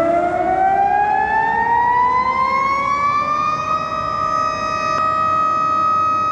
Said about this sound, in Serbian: Tačno u 12 sati u gradu su se oglasile sirene, održan je minut ćutanja za ubijene i prognane u Oluji, beleži Zoran Glavonjić.